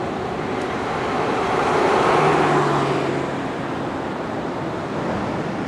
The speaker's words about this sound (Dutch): Nou, eens kijken of we hier op het strand eh, al kunnen rijden. Maar ik zie dat er al mensen hebben gereden, zo te zien.